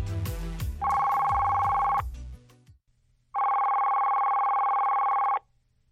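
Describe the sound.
A telephone ringing for an incoming call: two long, steady electronic rings, the second following a short pause. Other sound fades out before the first ring.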